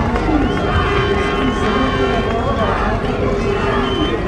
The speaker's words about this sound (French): La remontée du chenal du Port Olonna des Sables d'Olonne commence à 14h pour Charlie Dalin. Le chenal est noir de monde pour l'accueillir et un chenal noir de monde, ça sonne comme ça.